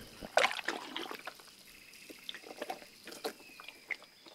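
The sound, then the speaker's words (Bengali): Water trickles and splashes faintly in a few uneven bursts as feet are washed in a washroom with plenty of running water. “সে আমায় call ঘরে নিয়ে এলো আমি এবার পা ধুতে ঢুকলাম অঢেল জল কল ঘরে”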